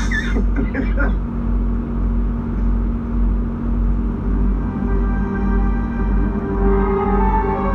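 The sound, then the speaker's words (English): Soundtrack of the Street Fighter movie trailer: a steady, heavy low rumble and drone like engines, with sustained tones and brief bursts of voices or effects near the start. “Let's pull up the trailer for Street Fighter here.”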